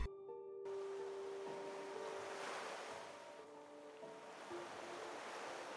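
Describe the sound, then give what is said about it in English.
Ocean waves break on a sandy beach in a steady, continuous roar of surf and foam that rises and eases slightly without pause, with wind noise mixed in. “Kate and Michael had come to the beach for the entire summer. 3 months stretched out before them, endless as the tide that painted white ribbons of foam on the sand.”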